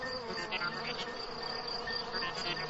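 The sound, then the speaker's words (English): Cricket chirping in a steady, high-pitched, continuous trill on its own, with no voices. “You can tell the temperature by how many times a cricket chirps in a minute.”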